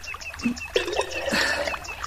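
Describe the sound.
Water trickles and gurgles unevenly as a clay water jug is filled, with small splashes and bubbling pulses rising and falling in strength.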